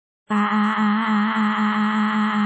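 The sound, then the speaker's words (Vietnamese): A woman screams in shock, one loud cry that starts abruptly after a moment of silence and holds at a fairly steady pitch to the end. “Cô giật mình hét toáng lên, hoàn toàn không phản ứng kịp.”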